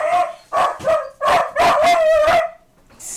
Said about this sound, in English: That's my dog-in-law. Is that a canine unit? That's my dog-in-law, sorry.